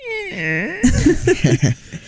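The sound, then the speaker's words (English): A voice imitates the sound of rolling eyes, starting with a drawn-out, wavering vocal glide that dips and rises, then breaking into a few short, choppy vocal bursts. “I just rolled my eyes. You couldn't hear it. But it sound, if you could have heard it, it would sound something like this.”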